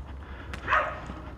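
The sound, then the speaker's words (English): A small dog gives a single faint, brief yap over a low, quiet background hum. “Yappy dog.”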